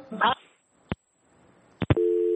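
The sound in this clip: A telephone line tone after a caller's call drops: a brief voice fragment and a few sharp clicks, then a steady, clear tone that runs to the end.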